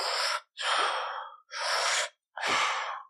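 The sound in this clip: A voice imitates heavy breathing, as of a man lying connected on a hospital bed, with four loud, rasping breaths separated by brief silent gaps in a steady rhythm.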